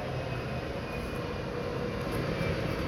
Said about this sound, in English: that airplane was very loud and annoying.